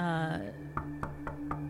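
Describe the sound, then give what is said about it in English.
Knocking on a front door: four light, evenly spaced raps, faint over a steady low hum. “So, yeah, I'm going to knock on the door”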